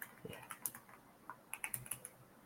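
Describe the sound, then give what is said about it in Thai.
Typing a search on a computer keyboard: quick, light key clicks in two brief flurries, faint and alone with no talk. “ต้องพิมพ์อัลฟาเบตอะ”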